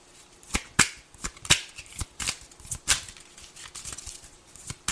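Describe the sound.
Tarot cards being shuffled by hand: many quick papery riffles and slaps in an uneven rhythm, with a few sharper snaps standing out, fairly quiet and with no talk.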